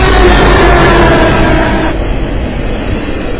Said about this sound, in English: Well, here comes the train, and this is the GO train.